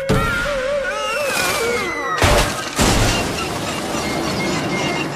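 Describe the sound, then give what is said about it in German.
A runaway Easter sleigh crashing down: wavering, whining tones give way to two heavy, loud crashing impacts close together midway, followed by a sustained, noisy rumble to the end. “Der Osterschlitten spielt völlig verrückt, weil Phil so herumzappelt. Dann stürzt er ab.”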